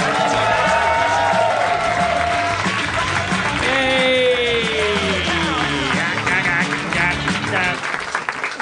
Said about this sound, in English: Welcome once again to Meltdown Comics in Hollywood, California. Harmontown is now in session. Please welcome to the stage the mayor of Harmontown, Dan Harmon.